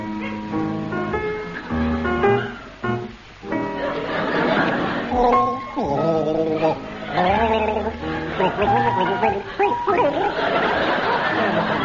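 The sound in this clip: A man gargles a melody in a timed game, producing a bubbling, bleating, wavering vocal line whose pitch slides up and down continuously throughout, fairly loud and sustained.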